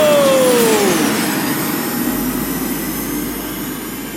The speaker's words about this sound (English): Racers, engage your hover drives. In 3, 2, 1, go!